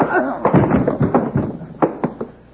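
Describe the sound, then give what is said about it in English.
A punch lands and knocks a man down in a fistfight, heard as several sharp thuds and smacks in an irregular cluster. A voice sounds briefly among the impacts. “I must have slipped. Yeah, slipped right into Bill's fist.”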